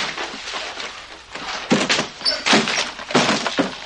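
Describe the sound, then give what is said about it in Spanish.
Heavy crashes and breaking glass as furniture is thrown out of windows, several loud irregular impacts in quick succession with no voices. “Los fascistas comienzan a tirar los muebles por las ventanas.”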